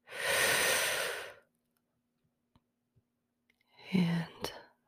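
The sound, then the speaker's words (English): A deep breath taken during a guided relaxation exercise: a long, airy inhale, then a near-silent pause with a few faint clicks, then a softer, partly voiced sighing exhale. “Let's take one more deep breath”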